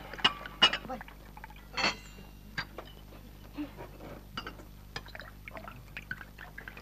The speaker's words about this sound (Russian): Лиза и Антон наливают гостям водку.